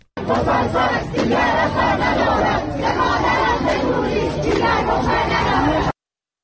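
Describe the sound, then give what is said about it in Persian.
Students protesting at Babol Noshirvani University shout and chant together as a loud, dense crowd, a continuous wall of raised voices that holds steady for about six seconds before cutting off. “بشنویم صدای دانشجویان در دانشگاه نوشیروانی بابل.”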